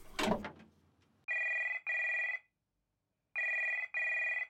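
A telephone rings after a number is dialed from a small shop: a brief clatter, then two pairs of bright, buzzing electronic rings with a silent gap between the pairs.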